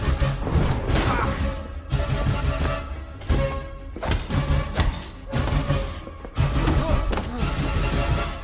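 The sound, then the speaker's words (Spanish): Heavy blows land in an action-film fight scene, a dense barrage of loud crashing thuds and whacks that come one after another with few pauses, sharp hits standing out against a constant roar. “Le golpea repetidamente.”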